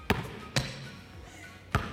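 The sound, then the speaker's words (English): A basketball thumps hard on the floor during bounce-pass practice, three sharp bounces in all. The first two come close together and the third follows after a longer gap, each a punchy thud with a short ring. “All right, now let's do the bounce pass. All right, you're still taking a step. Okay. All right, work on catching the near triple threat. Here we go, bounce pass.”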